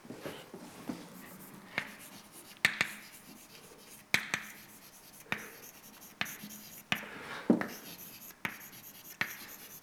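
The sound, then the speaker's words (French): Marker or chalk writing on a board during a physics lecture: many faint scratchy strokes and sharp taps in an uneven rhythm, with no voices. “Donc, je vais écrire la vitesse du centre de masse.”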